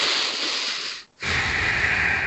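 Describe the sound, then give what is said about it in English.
Audible breathing through the nose, demonstrated as a slow breath: two long, airy, hissing rushes of about a second each, split by a brief silent pause, the second carrying a rougher low rumble. “Try taking that same breath through your nose.”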